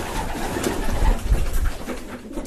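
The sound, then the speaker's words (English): Pigeons cooing in a pigeon loft, soft low throaty coos that overlap in a gentle, continuous murmur, fairly quiet and with no talk over them. “I go to the pigeon loft. Let me go to the pigeon loft.”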